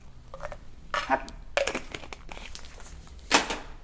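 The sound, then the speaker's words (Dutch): Crinkling foil packaging of vitamin tablets being pulled from a dispenser, with faint, irregular rustling and crackling bursts, a few sharper crinkles standing out. “Waarom is deze folie zo raar? Kom on. Ik kan hem niet uit de dispenser trekken.”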